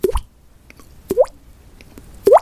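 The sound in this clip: A voice imitates little bubbles popping, making three short, wet plops spaced about a second apart, each with a quick upward flick in pitch.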